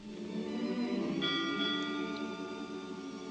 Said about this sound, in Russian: Почему звонит колокол? Забыла, какая сегодня ночь. Последняя ночь в 1799 году. 8 ударов в честь старого года и 9 в честь нового.